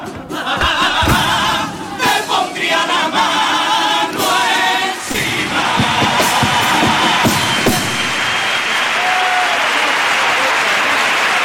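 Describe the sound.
A standing audience gives heavy, sustained applause for a comparsa's pasodoble at the Cádiz carnival contest preliminaries. The clapping stays dense and steady throughout.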